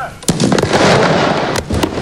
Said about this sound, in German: Ja, dann ist nämlich das alte Wankdorf-Stadion gesprengt worden.